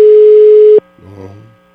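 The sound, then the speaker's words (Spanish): A telephone busy signal sounds on an unanswered call: one loud, steady tone that cuts off abruptly, then a brief, fainter wavering sound. “No, no contesta, Charlie. Sí, wow. ¿Cómo le haremos? No, buzón de voz.”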